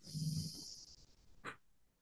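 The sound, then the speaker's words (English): Breathing in and out during a guided breathing exercise: soft, airy breaths, with a brief louder puff of breath near the end. The whole clip is faint. “Now, if you take your finger away, breathe out again. Breathe in and breathe out.”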